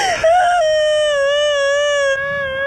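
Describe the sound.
A woman cries in a single loud, sustained, high-pitched wail that wavers slightly and holds its pitch before trailing off.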